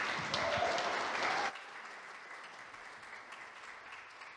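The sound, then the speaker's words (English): Church audience applause welcoming a guest speaker to the front: loud, dense clapping that cuts off abruptly partway through, leaving a much quieter, faint tail. “Let's give a warm welcome to Dave Penner.”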